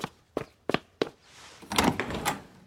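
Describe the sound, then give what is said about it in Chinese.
Four sharp, evenly spaced knocks on a door, fairly loud and crisp, are followed by a brief burst of shuffling, rustling noise. “刚进门不久就又听到了敲门声”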